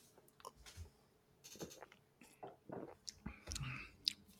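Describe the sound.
Soft mouth sounds of someone sipping and tasting an Irish craft stout beer: a few quiet slurps, swallows and small clicks spread over several seconds, faint and without speech.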